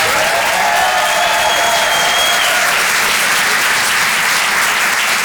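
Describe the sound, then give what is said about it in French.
Loud, dense audience applause at a comedy club after a comedian's set, a steady wash of clapping that continues unbroken from start to end. “Faites du bruit, s'il vous plaît, pour Vincent Serroussi.”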